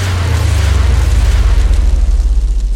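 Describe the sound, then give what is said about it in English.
Gunpowder rockets strapped to the backrest of a chair in ancient China ignite all at once in a loud, sustained roar. A deep, throbbing rumble runs beneath the dense hiss, holding steady for about three seconds before easing slightly. “A number of assistants then lit the rockets all at once and stepped”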